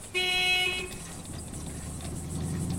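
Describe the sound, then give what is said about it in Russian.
A bus drives past on the road, starting with a short horn blast and followed by a steady low engine rumble that grows slightly louder toward the end. “Мимо проезжает автобус.”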